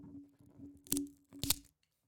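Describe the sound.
Paper tearing as the slip from a fortune cookie is ripped: two short, crisp rips about half a second apart, over a low steady hum, with quieter rustling before them.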